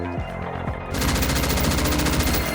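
Rapid automatic gunfire erupts about a second in and continues as a loud, dense, steady stream of shots to the end, with no talk over it.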